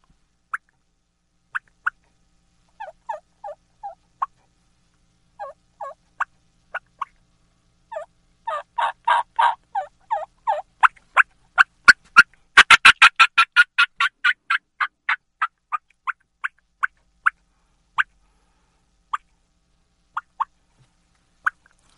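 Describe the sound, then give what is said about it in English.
A turkey fly-down cackle, imitated to copy a hen flying off her roost limb. Many sharp clucks start sparse and uneven, speed up into a rapid run near the middle, then slow and spread out again. “the fly down cackle is you're cutting at a pitch and rhythm like a turkey flying out of the limb, almost like the hen is getting kicked in the butt out of the limb, and it sounds like this.”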